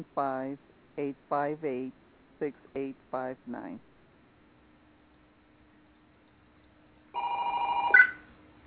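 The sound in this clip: A telephone rings with an incoming call: one bright, tonal ring lasting about a second follows a stretch of talk and a quiet pause.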